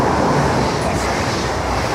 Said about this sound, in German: Während hinter ihnen ein ICE vorbeidüst.